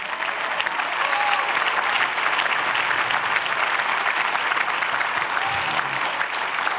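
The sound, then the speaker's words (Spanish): Thin, lukewarm audience applause during a church sermon, a steady wash of clapping that holds at an even level throughout with no other sounds standing out. “Digo, ese aplauso aguado es suyo.”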